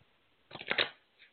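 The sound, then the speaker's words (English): A deck of cards shuffled during a card reading: one short burst of crisp, rapid riffling flutters lasting about half a second. It is heard alone, with a faint soft tap shortly after. “what I want you to do is just to tell me when to stop shuffling.”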